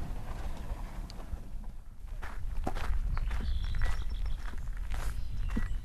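Footsteps of a person walking up to the wetlands from a parking lot, many steady soft steps over a low background rumble, growing a little louder partway through.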